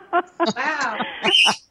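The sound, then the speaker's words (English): Pet birds call in a few short, chirpy bursts, one longer warbling, speech-like call and a high thin whistle near the end, fairly loud and irregular in rhythm. “Deborah's birds are trying to talk to us”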